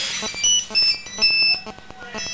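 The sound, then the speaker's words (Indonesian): A mobile phone rings with a rapid, repeating electronic tune of bright, high beeps over a pulsing rhythm, loud and continuous throughout. “Handphonenya bunyi.”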